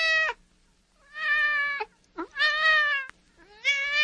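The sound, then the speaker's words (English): A cat meows a few times on its own, clear and loud, with sharp harmonic wails separated by short pauses and one brief chirp-like call in the middle, heard during a family's funeral for a cat. “as they're giving memories, they hear a cat.”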